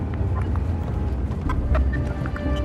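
Hooves of a horse being ridden through a forest, an irregular clip-clop of soft thuds half buried in steady, dense rumbling noise.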